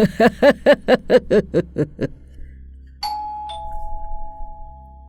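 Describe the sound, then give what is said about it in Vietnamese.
A doorbell ringing. A quick, evenly spaced run of short pulsing tones comes first, then after a brief pause a clear two-note chime sounds and rings out, slowly fading over a low hum. “Tiếng chuông cửa vang lên”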